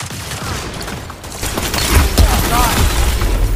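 Gunfire in the FiveM video game: a rapid fusillade of sharp cracks and booms over a dense, rumbling backdrop, growing louder past the midpoint and staying intense to the end.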